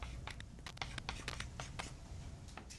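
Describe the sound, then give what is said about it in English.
Marker or chalk scratching out a line on a lecture board, heard as many quick, scratchy strokes in an uneven rhythm, moderately loud over a low background hum. “So we can draw a line.”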